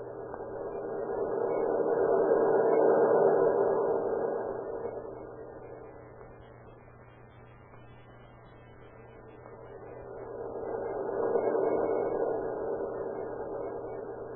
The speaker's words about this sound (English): You hear that pump? Well, wait a minute. Cut off your motor.